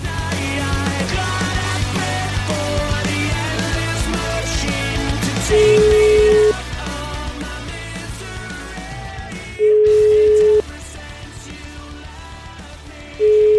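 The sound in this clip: A telephone call being placed, heard as a steady mid-pitched ringing tone: three long beeps about four seconds apart, the last one cut off, over continuous background music.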